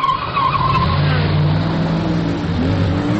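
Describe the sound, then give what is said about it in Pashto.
Tires skid in an old car racing computer game, making a loud, sustained screech over a steady engine drone that lasts the whole three seconds. “زاکثر وخت په کمپیوټر کې دا قدیم موټر زغلولو گیم کوم”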